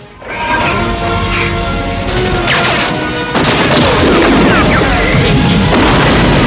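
A tank gun fires in a dramatised battlefield scene: a heavy, loud boom and crash bursts in after an opening tonal stretch, then swells into a sustained roar that stays loud to the end.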